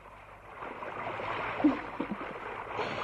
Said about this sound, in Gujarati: ચાલ બેસવા કરતા પેલું નદીનું વહેતું પાણી જોઈએ.